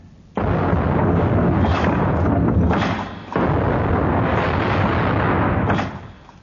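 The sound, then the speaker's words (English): Ship's guns of the first division opening fire in a cannon volley, heard as two long, loud, sustained booming roars with a short gap between them and no voices. “Open fire, First Division!”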